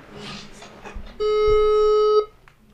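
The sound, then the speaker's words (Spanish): Telephone ringing while a call is placed: a single steady, buzzing ring tone with rich harmonics lasting about a second. Faint rustling noise comes before it. “Así que vamos a marcarle. A ver si contesta, si no le llamamos a otra persona.”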